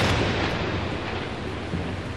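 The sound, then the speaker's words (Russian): A violent storm at sea churns as a dense, unbroken roar of wind and water, loud and steady, with a deep rumbling low end and no voices. “Но когда они отплыли от порта, разразилась сильная буря.”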